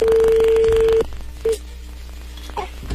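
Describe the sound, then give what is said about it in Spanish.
A telephone call is dialed and connects: a steady tone holds for about a second, a brief blip follows, then faint low line noise fills the rest. “A ver, ya entro ahí la llamada.”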